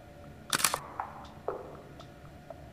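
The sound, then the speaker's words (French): Camera shutter clicks as a photo is taken through a car windscreen: a loud cluster of sharp mechanical clicks, then a few fainter, spaced single clicks, with no talking. “Moi je vais prendre mon appareil photo. Tu veux bien? Regarde.”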